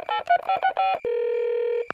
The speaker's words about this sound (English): I'll give them a call.